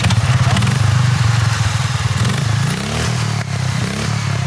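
A tuned 25 hp ride-on lawn mower races at full throttle, its engine giving a loud, continuous buzzing roar with rapid pulsing and a rattly edge, the pitch shifting upward partway through as it revs.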